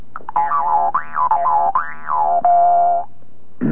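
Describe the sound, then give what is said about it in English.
A Jew's harp sounds one twanging, buzzy note rich in overtones and subharmonics, its resonances wavering up and down over about three seconds before a short noisy burst at the end. “this is due to the overtones and the subharmonics that are contained in this instrument, which is the Jew's harp.”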